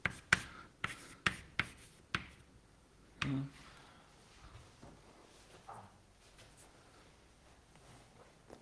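Chalk or marker strokes on a board during a lecture: several sharp taps and scrapes in quick succession, then one heavier stroke followed by faint, sparse scratching.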